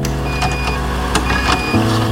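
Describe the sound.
An air conditioner switches on. A steady mechanical hum with a faint whine and a few soft clicks runs until the unit's tone shifts and strengthens as it kicks in near the end.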